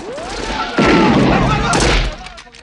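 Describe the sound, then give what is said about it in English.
Soldiers fire on a man diving behind a bush in a villa rose garden during a film shootout. A heavy, booming burst of gunfire hits suddenly after a brief whistling sweep, holds as a dense roar, then fades away. “Outside in the rose garden, John dives behind a bush as soldiers fire at him from a stone staircase.”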